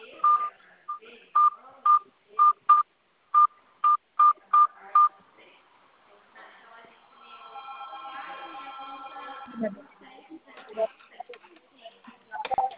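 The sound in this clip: Telephone keypad tones ring out as an ID number is entered on a phone call: a quick run of about ten short, steady, evenly pitched beeps, followed by talk and other sounds.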